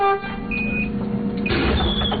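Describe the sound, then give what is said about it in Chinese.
Engine rumble and road noise from a bus carrying schoolchildren from a village along a winding mountain road to school. The sound is steady and low, and the noise grows louder and fuller in the second half. “汽车沿着蜿蜒山路缓缓向着横渡中心学校驶去”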